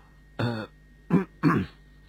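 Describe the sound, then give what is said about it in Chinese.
A soft cough from a monk: three short, quiet throat-clearing bursts, the first slightly longer and more voiced, with pauses between them. “空文大师轻轻咳嗽咗声”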